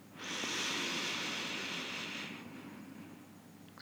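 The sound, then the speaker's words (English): A deep breath drawn during a relaxation meditation: a soft, airy hiss that swells quickly, holds steady for about two seconds, then eases into a fainter, quieter flow of air. “Now taking a nice big, deep, long breath into the low belly.”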